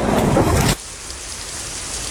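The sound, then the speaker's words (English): Heavy rain with thunder as lightning strikes near a golf cart on a golf course: a loud, dense roar that cuts off abruptly after under a second, leaving a quieter steady hiss. “Somebody got hit by lightning. The golf cart got hit by lightning.”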